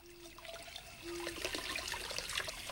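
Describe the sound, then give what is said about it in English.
Water running at a sink during washing up, a faint trickling splash that grows a little louder partway through and then continues steadily. “Later, she's washing up at the sink, her hair loosely tied back.”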